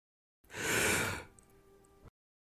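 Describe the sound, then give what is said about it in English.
One person draws in a single deep breath: a strong, airy inhaling rush that lasts under a second and then trails off into a quieter, softer breathy tail. “Can you take a deep breath with me? Breathe in.”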